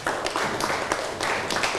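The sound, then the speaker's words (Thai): Students in a Thai classroom applaud a classmate with a short burst of uneven, overlapping clapping. “นั่งลงได้ครับปรบมือให้กับเพื่อนหน่อยครับ”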